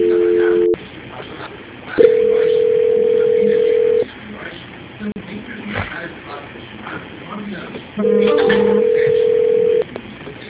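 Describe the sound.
Telephone line tones while a call is being transferred: three steady electronic beeps, the first brief and the next two lasting about two seconds each, separated by quiet stretches of line hiss and faint clicks.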